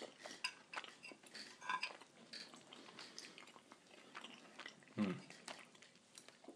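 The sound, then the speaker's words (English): Faint chewing of food with soft clicks and clinks of cutlery, scattered and irregular, with a slightly stronger bite or clatter near the end. “Let's see how the wine goes with it, and then I can spare you the rest of the eating noises.”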